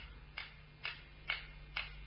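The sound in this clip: Ticking of an old wall clock: four evenly spaced, faint, crisp ticks in a steady rhythm, with nothing else heard.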